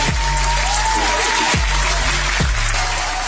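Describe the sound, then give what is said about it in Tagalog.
Audience applause welcoming a guest: steady, dense clapping from many hands runs continuously at an even level throughout. “Yan palakpakan natin mga kawan.”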